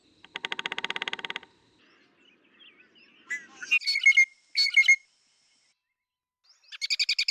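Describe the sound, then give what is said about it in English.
Bellied woodpecker calls: a rolling, buzzy trill, then after a pause a few sharp, high chirping bursts with silent gaps between them, and another trilled burst at the end. “Bellied woodpecker.”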